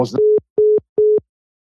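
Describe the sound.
Three short, even beeps of a steady mid-pitched telephone tone on a call back after a dropped line, following a brief burst of voice, then silence.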